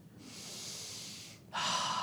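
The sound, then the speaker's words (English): A person who has just sat down in a car breathes in through the nose: a long, soft, airy inhale, then a sharper, louder sniffing draw. “You get into a car. You sit down. You breathe in”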